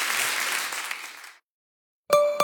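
Crowd applause that holds for about a second and then fades away, followed by a short silence and a brief bright tonal chime.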